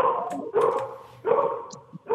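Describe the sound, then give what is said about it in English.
Dogs barking over a phone call, a few loud, sharp bursts of barking separated by short pauses, with talk mixed in. “Do you have dogs over there?”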